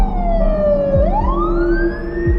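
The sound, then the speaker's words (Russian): An ambulance siren arriving at a crime scene in Saratov: a loud, continuous wailing tone that slides down, then climbs back up and holds, over a low road rumble. “К месту преступления подъезжает скорая помощь.”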